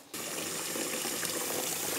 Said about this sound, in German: Dann würde ich jetzt dich bitten, kurz dich vorzureinigen. Das heißt, kurz in die Dusche zu gehen.